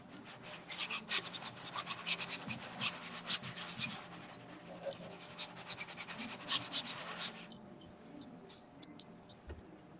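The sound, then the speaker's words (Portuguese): Brisk scratching strokes of someone painting with both hands: many quick, faint rasps in an irregular rhythm that stop abruptly near the end, leaving near-quiet. “ele está pintando com as duas mãos”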